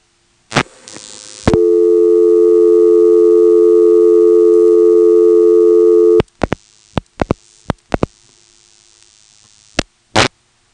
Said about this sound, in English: You can hear, first, the initial tandem trunk noise. It's 2600 in the background. And then when we dial 2-1, the trunk noise increases. And then we'll dial 1 and get a reorder.